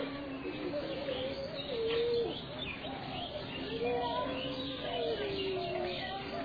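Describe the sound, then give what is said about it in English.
Soft, low cooing bird calls at a lake reached by steps through a small red sandstone entrance. The calls repeat in gentle, smooth phrases over a steady hiss of background sound. “And it's just like here, all you can hear is these birds.”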